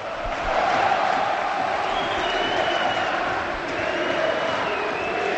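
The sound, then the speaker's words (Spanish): Valencia supporters chant at Mestalla stadium during a match, a steady, loud roar of many voices sustained throughout without a break. “Y un tercer tema que ha sucedido durante el partido y con fuerza cuando ya el Valencia tenía decidido el partido, la afición del Valencia. Segundo, escuchar a Mestalla.”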